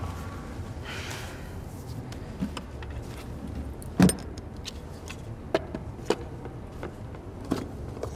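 A car drives home at night, a steady low engine and road rumble with occasional small clicks and rattles on top.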